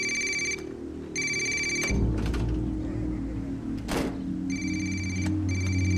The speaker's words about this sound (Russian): ну возьми трубку